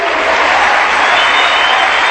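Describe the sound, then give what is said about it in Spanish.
An audience applauds during a church sermon, a short burst of loud, dense and steady clapping from many people. “Aplauso para el Señor.”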